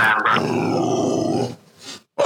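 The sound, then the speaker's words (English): A female dog growls in a low, rough, continuous rumble lasting over a second, then fades to a faint trailing sound before a short burst returns at the end. “Let me just tell my dog to behave herself. She's so naughty, this dog.”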